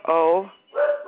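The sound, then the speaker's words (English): A female dog barks twice: a longer, tonal bark followed after a brief pause by a shorter one, both fairly loud. “What is she barking at? Hey, shush.”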